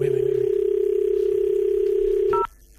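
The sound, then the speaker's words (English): A telephone tone sounds as a call is placed: one steady, mid-pitched tone holds level for about two and a half seconds, then cuts off abruptly into near silence, with no talk. “We're going to call him quickly.”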